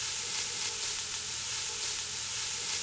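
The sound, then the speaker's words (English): Thinly sliced onion, minced fresh ginger and minced garlic sizzle as they sauté in fat in a pressure-cooker pot, a steady, even crackling hiss that holds without a break and with no talk. “now he's adding a large onion that's been thinly sliced, and he's going to saute that up in the fat in the pot with a tablespoon of fresh minced ginger and 2 teaspoons of minced garlic”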